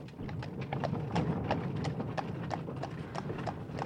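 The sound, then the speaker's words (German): Hooves of a horse-drawn carriage clip-clop as it drives off, a steady, even run of sharp knocks over a low rumbling bed, fairly loud and with no talk. “Die Peitsche knallte, die Marchesa schwenkte das Taschentuch, die Kutsche fuhr davon.”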